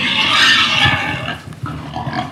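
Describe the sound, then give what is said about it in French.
Pigs on a farm with about fifteen breeding sows grunt and snuffle in a steady, dense jumble of rough low noises, fairly loud throughout with a brief dip near the middle. “Et ça c'est les cochons.”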